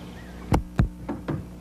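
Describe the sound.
Police knock on a door: four sharp raps, the first two louder and closer together, the last two slightly softer, over a quiet background.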